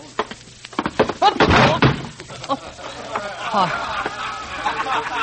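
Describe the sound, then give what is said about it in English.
A heavy thud and clatter of someone stumbling on a stage after catching a toe, one strong thump followed by smaller knocks, with people talking and some background voices. “I'm sorry, Stone Crusher. I caught my toe.”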